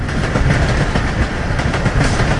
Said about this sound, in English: Electric trains carried the sulphur from the mine down to the harbour in Utgangir.